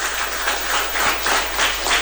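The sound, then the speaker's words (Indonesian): An audience applauds at a talk show, many hands clapping in a dense, steady patter with gentle swells, with no voices over it. “Tepuk tangan yang meriah.”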